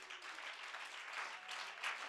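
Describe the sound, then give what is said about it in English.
A church audience gives a hand clap during worship, a faint, steady patter of many hands that stays even throughout. “let's give God a good hand clap.”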